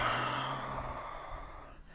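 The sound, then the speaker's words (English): A slow breath out during a guided stretching exercise: one long, soft, airy exhale that gradually fades away. “Breathe in. Breathe out.”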